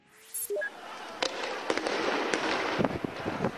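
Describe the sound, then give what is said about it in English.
Bangs like gunshots ring out as riot police raid a square overnight and surprise thousands of sleeping protesters. Many sharp, loud cracks come at irregular intervals over a steady roar of background noise. “That's the sound of riot police moving into Bahrain's main square overnight, taking the thousands of sleeping protesters there by surprise.”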